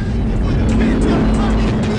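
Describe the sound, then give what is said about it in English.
Five cars in arrow formation roar toward a street race meet: a dense, loud, continuous engine roar. “Five cars in an arrow formation roar towards the meet.”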